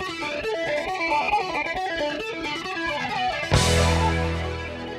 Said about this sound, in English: split it into two signals, and delay one of those signals a tiny bit, less than 20 milliseconds. And then, slightly but continuously, changing that delay time, which creates this sweeping, swooshing sound.